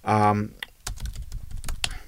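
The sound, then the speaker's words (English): Keyboard typing as a search is entered into Google: a quick, irregular run of light clicks follows a brief voice at the start. “Brian Lilly Pedagogy is such a weird thing to type into Google.”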